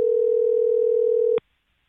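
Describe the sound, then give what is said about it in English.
Telephone tone from a call that goes straight to voicemail: a single steady, pure electronic tone holds for about a second and a half, then cuts off abruptly into silence. “We're straight to voicemail.”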